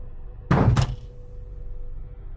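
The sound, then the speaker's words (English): A hand bangs on a car trunk to get it to work, giving two quick, heavy hollow thuds close together that ring briefly against a low background hum. “he's banging on the trunk.”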